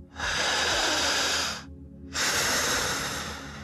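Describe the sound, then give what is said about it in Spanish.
Special breathing pattern demonstrated for a hypnosis patient: two long, loud, hissing breaths separated by a brief pause, each rushing and airy with a slightly snorting edge. “será necesario que el paciente empiece a respirar de una forma especial. Hacer esto.”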